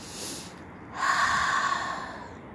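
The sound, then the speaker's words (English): A deep breath, drawn during a guided prayer, begins after a moment of near quiet as a long, airy, steady inhalation lasting about a second and a half, heard alone. “You can close your eyes and take a deep breath.”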